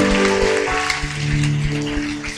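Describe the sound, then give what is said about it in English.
Applause from a church audience during a worship service, a dense crackling patter that runs throughout, mixed with sustained musical tones and a steady beat. “Come on, give a big hand.”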